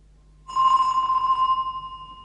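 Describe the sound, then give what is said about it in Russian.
A doorbell rings at the front door of a home: one steady, bright bell tone starts abruptly and holds for nearly two seconds, slowly fading without any talk. “Спустя некоторое время у входной двери раздался звонок.”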